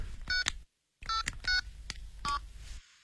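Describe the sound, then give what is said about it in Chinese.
A mobile phone is dialed with a series of short touch-tone key beeps, in quick bursts broken by a brief silent gap, each beep clear and fairly soft. “那么你现在就给那个南京先生打电话，打手机。”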